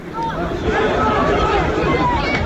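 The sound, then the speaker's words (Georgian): Protest crowd noise on Tverskaya Street in central Moscow during arrests of Alexei Navalny's supporters: a dense, steady wash of overlapping voices and commotion that stays loud throughout. “ეს ხმაური, რომელიც ალექსი ნავალნის მომხრეების დაკავებას ახლავს, ჩაწერილია მოსკოვის ცენტრში, ტვერის ქუჩაზე”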